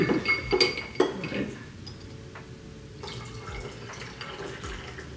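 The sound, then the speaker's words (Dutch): Glassy clinks of a spoon stirring a tonic drink in a glass, a few sharp chimes early on, then softer, quieter clinking over a low background hum. “En dan moet ik dit roeren of gewoon zo laten? Ja, eventjes roeren.”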